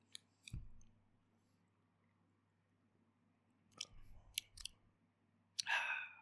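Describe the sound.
A can of beer cracked open: a few sharp clicks, then a short burst of bright fizzing hiss at the end, with quiet stretches between.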